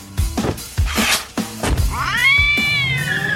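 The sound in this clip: A ginger cat baring its fangs, with a few noisy, breathy bursts and a thump, then a loud, drawn-out, wavering high yowl.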